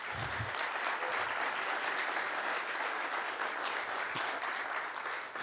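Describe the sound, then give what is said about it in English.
Audience applause welcoming a woman onto the stage, a dense and steady wash of many hands clapping that holds at an even level throughout, with no voices heard over it. “why don't you give her a hand and welcome her?”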